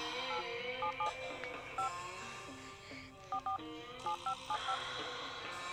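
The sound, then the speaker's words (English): Telephone keypad tones dialing into voicemail: several short, bright touch-tone beeps in uneven bursts over a steady background hum. “let me check the voicemail.”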